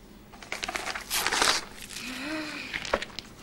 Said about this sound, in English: tears out the page from his book